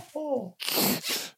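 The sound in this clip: A person sneezes once: a short voiced intake leads into a loud, breathy, explosive burst that trails off in a softer rush of air.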